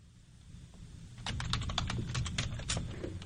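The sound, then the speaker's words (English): A text message being typed: a quick, irregular run of many crisp key taps over a low, steady background hum. “So I'm writing a text here to our pal, responding to our pal Jeff”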